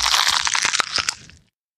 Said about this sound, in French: La renarde brune s'en saisit et croqua à pleines dents dans le ventre du poisson encore vivant.